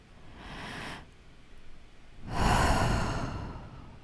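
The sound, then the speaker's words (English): A slow deep breath taken during a calm guided relaxation exercise, heard as two soft, airy breath sounds with no talk; the second is louder and longer than the first. “Take a deep breath.”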